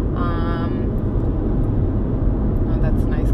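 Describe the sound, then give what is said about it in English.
Road and engine rumble inside a moving car: a steady, loud, low drone continues throughout, with a brief muffled voice near the start. “we're driving right now”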